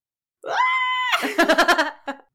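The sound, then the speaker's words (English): A high-pitched human scream holds a steady, piercing pitch for under a second, then breaks into a quick run of choppy vocal bursts and a final short cry. “Just a high-pitched scream.”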